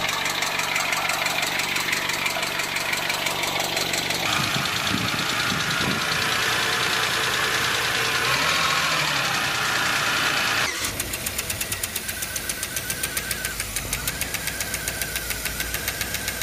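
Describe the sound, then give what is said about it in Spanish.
Rapid metallic ticking from unloaded, oil-filled hydraulic valve lifters in a running engine, a dense, even clatter over a loud, steady idle that shifts in tone partway through. “Los buzos funcionan con aceite y cuando están descargados se escuchan así.”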